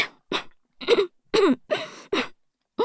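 Several harsh, separate coughs, with short gaps between them, from someone whose drink or food went down the wrong pipe. Each burst is loud and sharp, and the coughs come alone without talk.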